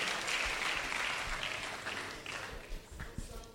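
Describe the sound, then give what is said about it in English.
A church audience applauds to welcome a man coming up to give his testimony. Dense clapping starts strong, then gradually thins and fades, ending with a few scattered individual claps. “Please put your hands together. Let's welcome Samuel to give us his testimony.”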